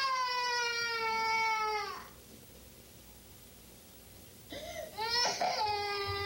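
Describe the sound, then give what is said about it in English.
A young boy wails in a temper tantrum. A long, high cry slides downward in pitch and fades into a quiet pause, then a second sobbing wail starts up and climbs again. “I'll be glad when he stops his temper tantrum. It's hard listening to him carry on like that.”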